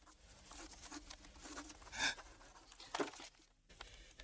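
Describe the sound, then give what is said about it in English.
A pen scratches across a newspaper in soft, irregular strokes, faint and papery, with a slightly louder scrape near the middle. “Archie hands him a pen. Ken grabs a newspaper and starts writing as Archie watches intently.”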